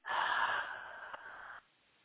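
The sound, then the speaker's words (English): During a guided breathing exercise, a deep breath is pushed out fully with the stomach drawn in. It is a faint, steady rush of air that is strongest at the start, thins gradually, then cuts off after about one and a half seconds. “And one more breath. Exhaling fully.”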